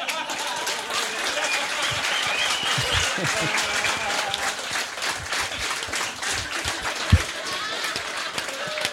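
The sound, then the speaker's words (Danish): Audience applause welcomes a guest onto a talk show: dense, sustained clapping at an even level, with a voice faintly beneath it and one sharp thump near the end. “Som jeg nævner her, så giver en kæmpe stor hånd til intet mindre end en charlatan.”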